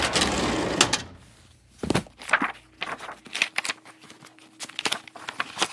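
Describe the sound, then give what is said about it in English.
Papery rustles and shuffles as old letters between Vincent and Theo are rifled through: an irregular run of sharp, brief flicks and slides, loud and dry, with short quiet gaps between them. “Maybe Vincent or Theo mentioned the attacks in the letters. Let's rifle through Vincent and Theo's letters.”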